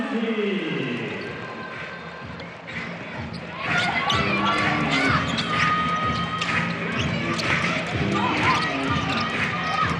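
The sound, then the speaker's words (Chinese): A basketball is dribbled in a game, including a behind-the-back dribble, with repeated rhythmic bounces over crowd noise and voices. “小玉先把球给拿好，但是把球传进来的时候，哦，漂亮的背后传球，背后运球”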